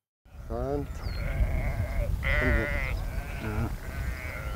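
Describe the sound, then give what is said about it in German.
Sheep bleating in a large flock of about 630 grazing on a heath, with a few wavering bleats rising over a steady low rumble of background noise. “Die 630 Schafe sorgen hier für eine ganz natürliche Landschaftspflege.”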